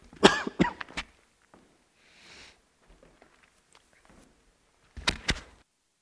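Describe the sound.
Coughing and throat clearing: a quick cluster of three harsh coughs, then a quiet pause with faint breathing, then two more rough bursts near the end.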